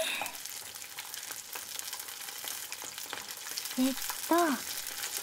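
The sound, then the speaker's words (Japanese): Kakiage tempura of carrot, onion and small shrimp deep-frying in oil makes a steady, fine crackling sizzle throughout. The bubbling stays fairly faint and even from start to finish. “かき揚げはさすがに大きいので2分間しっかり揚げます。”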